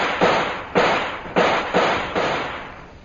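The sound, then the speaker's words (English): Gunshots in a firefight: five sharp bangs at uneven intervals, each followed by a short decaying tail, fairly loud, with no voices between them. “We'll start firing again. We haven't much time.”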